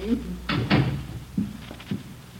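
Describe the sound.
A door opening and closing, heard as a few soft knocks and thuds mixed in with people talking.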